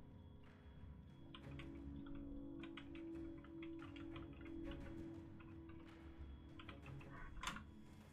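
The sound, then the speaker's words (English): Soft, irregular keystrokes on a computer keyboard clatter in many quick bursts over a steady low hum, quiet and with no talk. “I can't even fucking type.”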